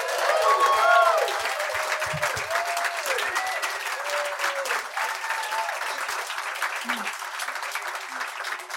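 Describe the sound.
Audience applause and cheering in Brooklyn welcoming Brad Roberts of the Crash Test Dummies: dense, sustained clapping, loudest at the start, with whoops rising above it early on, then carrying on steadily to the end.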